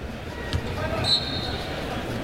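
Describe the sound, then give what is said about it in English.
Referee's whistle at a Wisconsin Badgers college basketball game against Stevens Point, a brief thin high-pitched tone lasting about half a second over steady arena and court noise. “And a whistle, and I believe a timeout taken by the Badgers.”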